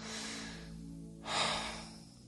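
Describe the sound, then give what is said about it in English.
One deep breath is drawn during a guided prayer, a brief airy rush that swells out of a soft, steady tonal background and then fades. “Take a deep breath.”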